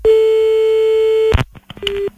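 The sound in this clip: A telephone ringback tone as a call is placed: one long, steady, mid-pitched tone, then a sharp click and clatter, then a shorter second tone at the same pitch.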